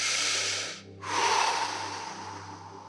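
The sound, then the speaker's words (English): A group takes a deep breath together during a relaxation exercise: a soft, broad hiss of inhaling, a brief pause, then a longer exhale that swells and slowly fades. “take a deep breath and then release it all at the same time”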